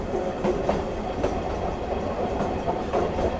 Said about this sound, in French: Il y a le bruit, même si maintenant, avec les soudures sur les rails, on n'a plus tout à fait le tatac-tatoum, tatac-tatoum.